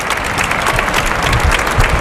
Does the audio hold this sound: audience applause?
yes